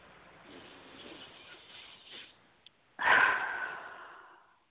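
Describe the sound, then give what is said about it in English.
A deep breath: a long, soft, breathy hiss, then a sudden louder rush of air that slowly fades away, alone and without talk. “Nice deep breath.”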